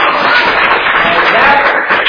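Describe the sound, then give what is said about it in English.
An audience applauds a woman during a church sermon with a short, dense burst of clapping that stays fairly loud and even throughout. “Give it a round of applause for Nadia.”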